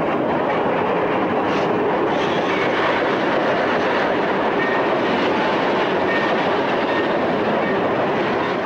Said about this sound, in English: Later, the snow-covered train crawls into a station.